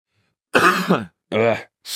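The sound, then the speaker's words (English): Coughing from a person with a cough: a few loud, harsh bursts in quick succession with short gaps between them, heard on their own. “sorry, I have this cough today.”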